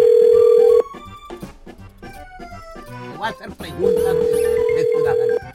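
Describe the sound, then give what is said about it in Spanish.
Ringback tone of an outgoing telephone call, a long steady tone that breaks off, then a stretch of other sound, then a second long steady tone that holds until near the end. “Vamos a marcarle a este vato, se llama Gerardo”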